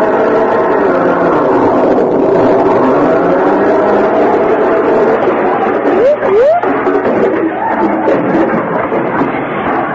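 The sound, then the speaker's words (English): A car drives across a lawn, its engine a loud, continuous rumbling roar that stays heavy and unbroken throughout, with a brief wavering tone near the end. “What are you two hoodlums think you're doing? Driving across my lawn with that car.”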